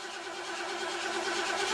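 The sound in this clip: A 1987 Merkur XR4Ti car engine runs steadily, a continuous mid-pitched hum that holds at an even level throughout with no voices.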